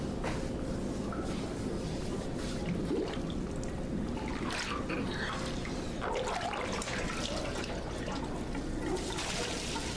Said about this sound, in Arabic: ماذا تفعل؟ الماء يرشنا.